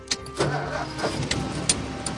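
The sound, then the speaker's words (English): A large black vintage car with rounded fenders starts as the key turns in the ignition: the engine cranks and catches into a steady, rough mid-pitched running rumble, with no talk. “Sitting low behind the big steering wheel, she turns the key in the ignition with a white-gloved hand, then shifts the car into gear.”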